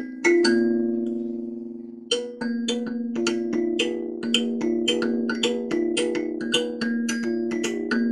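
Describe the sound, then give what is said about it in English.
Bright metallic notes from an African thumb piano, a kalimba, struck with a mallet and played on a drum, ring out in a steady, repeating melodic pattern of many short, percussive attacks over a sustained low tone. “we're using an African thumb piano, which is called a kalimba, and we introduced a mallet to that to give it a percussion sound. And then we introduced it on the drum to give it a full sound, and it sounds like this.”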